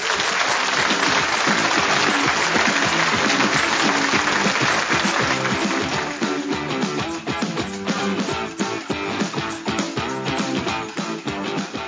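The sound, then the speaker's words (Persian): Applause from an audience answering a call to clap: dense, continuous clapping that stays loud for about six seconds, then eases slightly and carries on steadily to the end, with no talk over it. “تمامش کرد، بزن دست قشنگر رو برو.”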